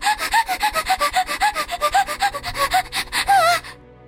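A person makes an exaggerated breathing noise: many rapid, rhythmic, rasping breaths with squeaky pitched edges, ending in a longer, strained gasp.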